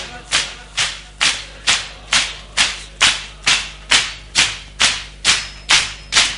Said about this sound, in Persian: فقط سینه بزن، فقط سینه بزن.